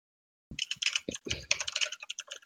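Rapid typing on a computer keyboard starts after a brief silence and continues as many quick, crisp keystrokes in uneven bursts, fairly faint.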